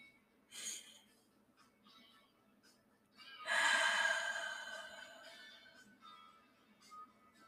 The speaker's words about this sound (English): And we breathe again. Inhale. And exhale.